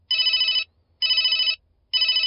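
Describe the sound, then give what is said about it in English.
A telephone rings in three evenly spaced bursts, each a bright, trilling electronic ring about half a second long, separated by short silences, with the last burst cut off at the end. “Phone ringing.”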